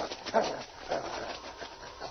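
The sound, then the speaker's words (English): A dog whimpers while digging down through snow at a big stump. A few short, high whines rise over a faint, noisy background. “The dog led the way directly to a big stump. It was covered with snow, and King started digging down to it. Something underneath there, King?”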